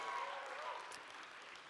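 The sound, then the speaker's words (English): Applause from a church audience welcoming its Napier members to the morning service: a steady, soft wash of many hands clapping that holds at an even level throughout without distinct peaks. “Can we put our hands together and welcome in our Napier family? Come on, give them a big hand right now.”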